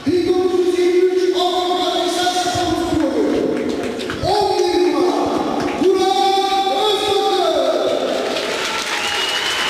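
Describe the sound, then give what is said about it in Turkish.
Football fans roaring after a goal for Afyonkarahisar, a loud, continuous crowd noise with long, sustained chant-like calls that step up and down over the clapping. “Alkışlar taraftarlardan Burak'a.”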